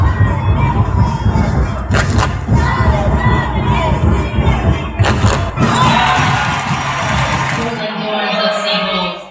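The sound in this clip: Crowd noise at an LAFC soccer game at BMO Stadium in Los Angeles: a loud, dense, continuous roar of cheering and shouting voices, with a few heavy thuds, thinning out near the end.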